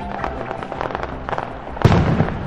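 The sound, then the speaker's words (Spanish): Fireworks exploding: a run of crackling pops and bursts, then one louder, heavier blast near the end that rumbles and crackles on. “Vamos a mirar estos fuegos artificiales que deslumbran al mundo. ¡Upa! Miren lo que hace, miren cómo explotó.”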